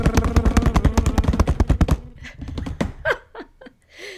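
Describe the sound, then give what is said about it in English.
A drum roll sound effect: a rapid, even burst of many loud hits runs for about two seconds, then breaks off into softer scattered sounds with brief voices. “I'd like the same sad drum roll, please. Give me a drum roll.”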